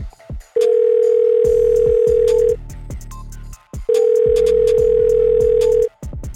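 A telephone line tone sounds while a call is being placed: two long, steady, low beeps of about two seconds each, separated by a short pause, loud over a low rumble.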